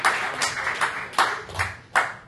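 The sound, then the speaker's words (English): Sparse audience clapping for comedians at a comedy show, a few louder claps standing out at a slow, fairly even beat over a noisy, rustling background. “Big round of applause for Daniel Reskin, everyone, and all the other comedians you've seen here tonight.”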